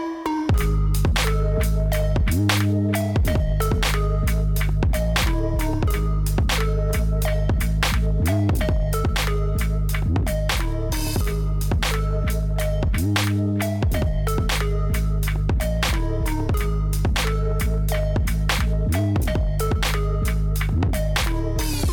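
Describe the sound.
An instrumental music beat plays as a steady looping groove, with heavy bass, sharp regular percussion hits and a repeating melodic phrase, without any voices.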